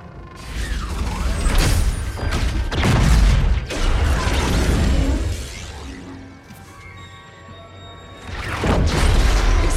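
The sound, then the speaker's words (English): A bomb going off: loud crashing booms and metallic clanks in repeated surges of broad rumbling blasts, with a final burst near the end. “Do the honors, Commander. What happens when that bomb goes off? Watch and find out, Agent.”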